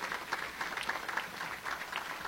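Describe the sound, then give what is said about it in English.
An audience claps for elected officials at an evening public event. The applause is steady, quiet and even-textured, with no voices over it. “if we could all give a round of applause of appreciation to all of our elected officials.”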